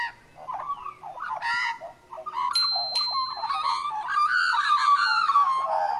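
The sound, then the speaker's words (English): A magpie calls in a warbling, fluting carol of varied, wavering notes that runs for several seconds, loud and clear, with brief gaps between phrases. “I want to talk to you this morning about magpie swooping.”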